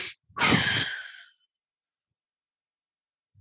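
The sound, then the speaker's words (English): Breathing exercise: a quick sharp sniff in through the nose, then a longer, forceful breath out lasting about a second, followed by silence. “Breathe in fast by way of your nose 2 times. And I'm going to show you an example. And then breathe out with one long breath.”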